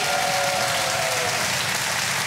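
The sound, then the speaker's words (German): Audience applause for a birthday during a bingo game; dense, even clapping continues at a steady level for the whole span with no talk over it. “Können wir noch mal einen richtig fetten Applaus für Michis Geburtstag haben?”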